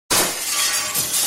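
Glass shattering in a sudden loud crash, a bright, harsh burst of breaking glass that sustains into a dense, glittering rattle of shards.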